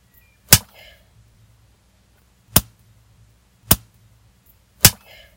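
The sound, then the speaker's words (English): A rubber band snapped against skin alternates with a hand slapping a thigh: four sharp, isolated cracks at irregular intervals in near silence. “I start alternating, snapping you with the band and slapping your thigh without rhyme or reason.”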